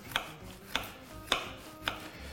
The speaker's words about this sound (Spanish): voy a cortar filetitos así finos,